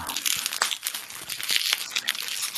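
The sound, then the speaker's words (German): Bubble wrap being handled, giving a dense, continuous crinkling and crackling studded with many small, sharp pops. “Oh, schon wieder Knackfolie.”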